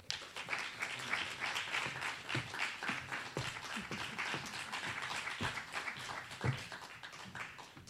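Audience applause at a Free Library of Philadelphia event: steady clapping from many hands that lasts several seconds, with a few sharper individual claps standing out and no talk over it.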